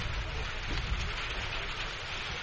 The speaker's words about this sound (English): Yeah, here comes the rain now. It's coming down, too.